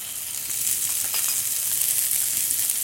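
Onions frying in hot vegetable oil make a bright, steady sizzle that grows slightly louder after the first moment and stays even throughout.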